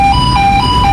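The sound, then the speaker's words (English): A repeating electronic tone sounds as a delivery truck passes through a giant X-ray scanner during Customs and Border Protection screening for Atlanta Stadium deliveries for the World Cup. The loud, steady tone alternates between two close pitches. “That sound is a delivery truck going through a giant X-ray scanner, but it only gets here after a weapons detection canine has already thoroughly sniffed the vehicle inside and out.”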